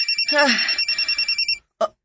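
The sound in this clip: A mobile phone rings with a rapid, evenly pulsing electronic trill for about a second and a half. A voice briefly sounds over the start, and a single short beep follows after a brief pause.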